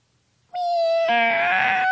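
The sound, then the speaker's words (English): A fat white cat gives a single loud, drawn-out meow that starts abruptly out of silence and holds a strong, steady tone, turning harsher and more strained partway through. “a fat white cat with a pink bow poked its head out and glared”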